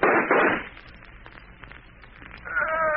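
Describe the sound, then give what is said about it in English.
A gunshot sound effect in an old radio drama: one loud, muffled blast at the start, then quieter noise and a rising tonal sound at the end. “Take a couple of pot shots. Maybe you can get him. No, not me. Can't you see the Shadow set to shake down the big boy? If you will shoot, I will. I'll get him even if I can't see him.”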